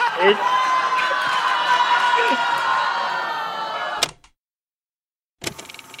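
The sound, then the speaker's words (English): A comedy-show audience in Detroit boos a man out of the room, making a sustained, loud vocal roar of crowd noise that cuts off abruptly into silence. A short burst of noise then returns. “Booing that guy out of the room because he said I shouldn't be there.”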